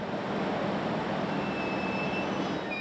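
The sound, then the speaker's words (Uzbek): A train arriving at a station platform gives a steady, loud rumble of rolling wheels, with thin high-pitched wheel squeals rising out of it toward the end. “Poyezd kelishi bilan ular platformaga yaqinlashdi.”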